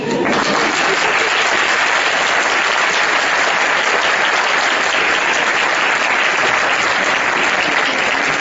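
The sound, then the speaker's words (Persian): An audience applauds at a talk with loud, dense, continuous clapping that holds steady for over eight seconds. “بیشتر از اون که بر من دست دهید برایشون دست بزنید”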